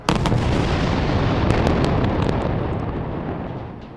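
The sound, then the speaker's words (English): Israeli rocket airstrikes exploding in the Gaza Strip at night: a loud, dense, sustained rumble of blasts with crackling bursts near the start, tapering slowly toward the end. “Yeah, it's the sound of Israeli rockets targeting Hamas in the Gaza Strip.”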